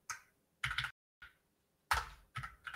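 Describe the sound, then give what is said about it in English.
Numbers being typed into a calculator: a few short bursts of crisp key clicks with brief pauses between them, some bursts holding several quick taps, with no talk over them. “Pull up my calculator. Whoops. I can't type.”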